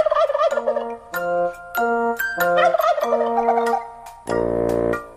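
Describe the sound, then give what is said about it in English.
Turkeys gobble in a series of rapid, warbling calls, broken by short pauses, and finish with a longer, louder burst. “Four fat turkeys out under the tree. One waddled off, then there were three.”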